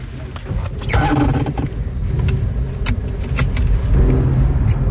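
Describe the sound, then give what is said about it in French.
A car drives along a riverbank road. Steady engine drone and road rumble hold throughout, with light rattles and clicks over the low noise. “Donc là, on roule sur les berges côté Veolia. Voilà. Et on va prendre le pont pour rejoindre Haut-de-Paris.”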